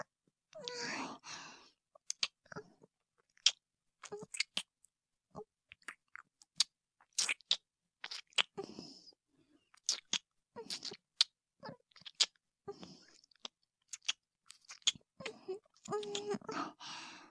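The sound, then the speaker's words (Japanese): Wet kissing and lip-smacking sounds in intimate close-up, many short moist smacks and clicks in an irregular rhythm, with soft breathy sounds near the start and end. “キス、心地よいか。たくさんしてやろうぞ。”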